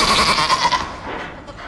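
Goats bleat in cages with a harsh, wavering, loud cry that fills the whole moment and fades slightly toward the end.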